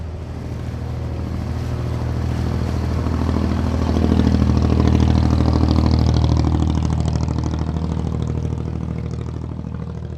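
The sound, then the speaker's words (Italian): Deafening roar of a flat-bottomed fibreglass boat's engine crossing a shallow gulf at racing speed, a steady loud drone mixed with rushing water and wind noise that swells slightly midway and holds throughout. “Il rombo del motore è assordante, le botte dello scafo sulle onde fanno temere un naufragio da un momento all'altro.”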